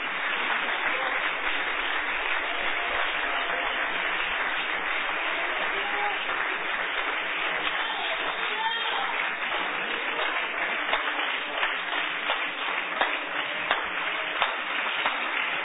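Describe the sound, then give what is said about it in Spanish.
A church audience gives long applause during a sermon, a dense, sustained clatter of many clapping hands with a slightly muffled, narrow tone, running unbroken for about fifteen seconds at an even level. “Denle un aplauso largo a Cristo, que Él se lo merece. Un aplauso largo en los que cambian eso allá.”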